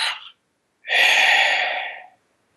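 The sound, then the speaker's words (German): A person breathes audibly: a short breath, a brief pause, then a long, airy exhale that gradually fades out. “dieses Ein- und Ausatmen.”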